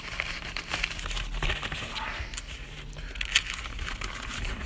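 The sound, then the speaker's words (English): Paper being picked up and handled, with continuous soft rustling and crinkling and one sharper crinkle partway through. No one speaks. “Let's see if I can reach over here real quick. A piece of paper.”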